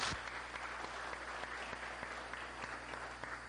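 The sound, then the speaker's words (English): Faint audience applause welcomes a presenter named Nick, a steady wash of many hands clapping with a few sharper individual claps standing out, over a low constant hum. “would you give a hand and welcome Nick”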